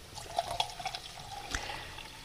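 Liquid poured into a tomato paste sauce to thin it into a creamy sauce: a soft, faint, continuous pouring trickle with a few small splashy bursts, without talk.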